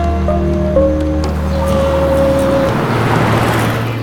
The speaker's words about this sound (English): He phones him, and Joe appears at the depot in his car. Joe drives Finn to the hospital.